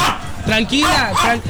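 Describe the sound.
A small female chihuahua yaps and whines in a few sharp, high barks with wavering whimpering tones, loud and close to alone.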